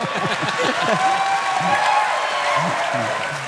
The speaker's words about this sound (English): Applause for God, guys. Yeah, that. Give it up for God.